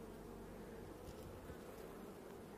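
Honeybees buzz in an open hive as a frame is pulled out for inspection, making a dense, steady low drone that stays faint and level throughout.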